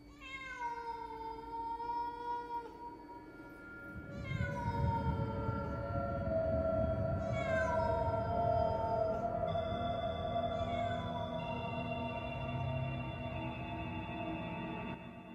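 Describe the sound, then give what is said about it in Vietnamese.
A cat meows several times in long, drawn-out calls, each one bending down in pitch, over a steady low background. “Không biết con mèo nhìn thấy gì, nó kêu lên mấy tiếng.”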